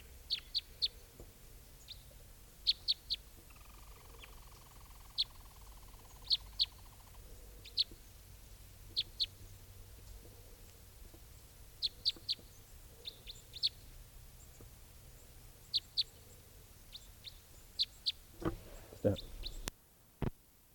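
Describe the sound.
Type 3 bird calls answering a decoy: many short, high, thin chirps spaced irregularly over a faint steady background, with a louder burst of sound near the end.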